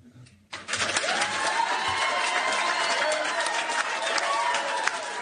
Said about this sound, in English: And the response you hear from the parents in the audience tells you that it's not a lost cause.